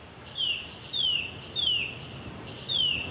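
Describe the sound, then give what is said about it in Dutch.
Eurasian nuthatch song: four clear, high whistled notes, each sliding downward in pitch, repeated at an even pace over light background hiss. “Een boomklever is niet de meest gevarieerde zanger en als je dit uren aan één hoort, dan kan je wel een beetje dol worden.”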